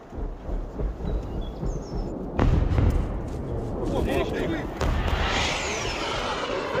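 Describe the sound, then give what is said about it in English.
Cruise missile explosions, a heavy, rumbling boom followed later by a second deep blast, with people talking throughout. “A cruise missile. A cruise one. Hell. It's getting closer and closer to us.”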